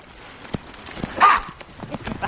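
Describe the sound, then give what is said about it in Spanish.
Hoofbeats of two horses galloping away with riders, an irregular patter of soft thuds with one louder burst near the middle. “La pareja se marcha al galope.”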